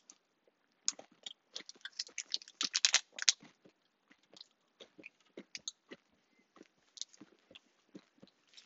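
Chewing on a chocolate peanut butter pie protein bar: many irregular, crunchy bites and chews, with a denser burst early on and then softer, scattered chewing. No talking.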